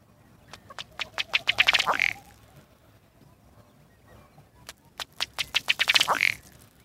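Diving ducks give two loud runs of rapid, harsh quacks separated by a quiet pause. Each run speeds up into a dense cluster of calls before breaking off.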